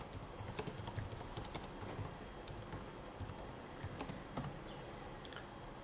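Computer keyboard typing as a name is entered into a search: many quick, light keystrokes in a steady patter, faint and continuous, with no talking.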